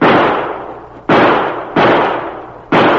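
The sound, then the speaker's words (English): Gunshots ring out in a gunfight in the brush: several sharp, loud cracks, each trailed by a long fading echo, spaced irregularly about a second apart. “He shot the gun right out of my hand.”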